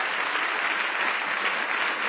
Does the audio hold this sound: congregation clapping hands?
yes